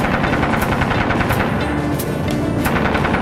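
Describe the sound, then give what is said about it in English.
A .50-caliber machine gun fires during a naval battle. The heavy, continuous fire comes in rapid bursts and stays loud throughout. “We're under attack! All hands, man your battle stations. Fire at will. Sailor, man that 50.”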